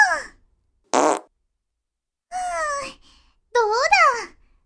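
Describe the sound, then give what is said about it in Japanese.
A few fart sounds in a playful tickling game between siblings, short blats, some with squeaky wavering pitch, separated by silence, alongside childlike vocal sounds. “くすぐられたところにおならが来たら吸い込むしかないもんね。”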